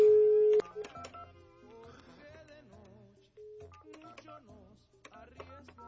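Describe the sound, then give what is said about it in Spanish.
A touch-tone phone keypad beeps as a number is dialed to call a friend. A steady opening tone gives way to many short, pitched key tones in an uneven rhythm, all fairly faint. “Entonces aguántame y le marco a mi querida Luz.”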